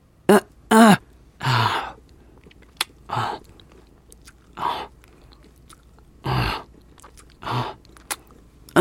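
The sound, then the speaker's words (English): Biting and wet mouth sounds from a vampire biting a werewolf in a role-play ASMR: a series of short, close bursts separated by quiet pauses, some carrying voiced moaning tones. “Will you stop biting me?”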